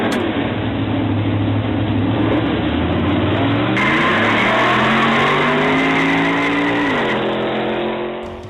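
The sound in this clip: Racing car engines roar loudly and continuously. The engine pitch climbs steadily through the middle, drops sharply near the end, then fades out.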